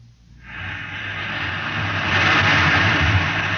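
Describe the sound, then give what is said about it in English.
Roaring gases from a Harrison Munch rocket reactor engine under test in a test chamber at Goddard rocket base: a broad, continuous rumbling roar swells in from near quiet and grows louder after about two seconds. “The Harrison Munch reactor engine for the first 3rd-stage rescue is being tested here at Goddard. You can hear the roaring of the gases in the test chamber behind me.”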